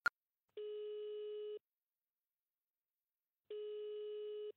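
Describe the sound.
An unanswered telephone call ringing on the line: a brief click, then two steady one-second ring tones separated by a long silence.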